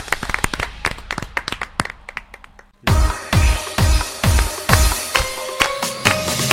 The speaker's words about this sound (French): Hein, on applaudit merci.